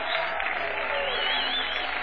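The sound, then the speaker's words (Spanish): A church audience bursts into loud applause, a thick, continuous wash of clapping mixed with crowd noise that stays strong and steady throughout. “Aplauda, silbe, zapate.”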